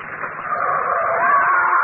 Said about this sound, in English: Come on, watch out. There's a car coming.